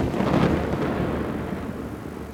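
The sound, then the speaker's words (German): Distant thunder from a passing thunderstorm over the sea: a low, continuous rumbling roar that swells near the start and then slowly eases, with a steady hiss throughout. “Das Gewitter hat sich verzogen. Nur noch weit draußen über Meer”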